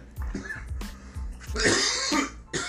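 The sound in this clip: A person coughing: a few harsh, loud coughs in quick succession, then a longer rasping bout of throat clearing and a final short cough, with no talking.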